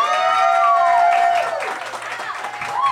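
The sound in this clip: An audience claps and cheers to welcome three comedy guests, the applause dense and loud, with a voice calling out over it at the start and again near the end.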